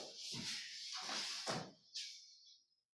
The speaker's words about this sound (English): And it just pulls the door shut.